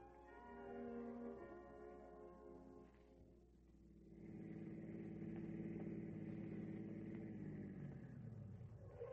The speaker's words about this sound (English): A motorist drives into a filling station.